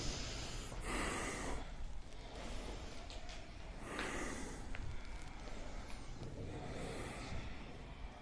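Faint breathing during a kriya yoga exercise: several slow, airy inhales and exhales rise and fade in a steady rhythm, with no talking.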